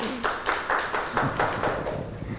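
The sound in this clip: Children clapping their hands for a classmate who gave a correct answer during a lesson, a steady, even rhythm of crisp claps running throughout at moderate loudness.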